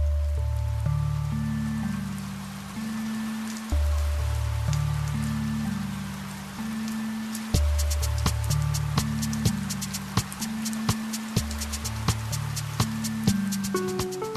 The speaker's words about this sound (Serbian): Bio je letnji raspust, dan najkišovitiji od svih mogućih kišnih dana.